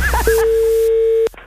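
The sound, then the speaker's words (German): Telephone line tone as a call comes in on a radio show: one steady, mid-pitched beep holds for about a second, then cuts off sharply, with brief speech just before it. “Das Telefon.”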